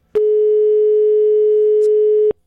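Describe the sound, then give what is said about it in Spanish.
A telephone line tone sounds while a call is dialed from a radio program to a listener's husband. It is one steady, buzzy tone at a single pitch, lasting about two seconds alone and cutting off abruptly. “Ahora vamos a marcarle a Javier, que es el esposo. A ver si nos contesta Javier.”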